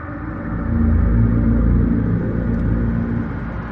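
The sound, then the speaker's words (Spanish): Deep, steady engine rumble of a car driving away along a straight road in a film scene. It swells slightly early on, then holds as a continuous low drone with no voices. “El coche del reverendo se aleja por una recta.”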